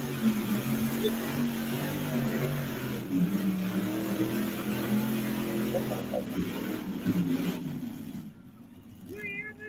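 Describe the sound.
An engine running at quarter throttle gives a steady, loud, droning hum with a low rumble. It holds fairly even before easing off and quieting near the end.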